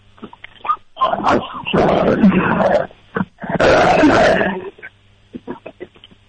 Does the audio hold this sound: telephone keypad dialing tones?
no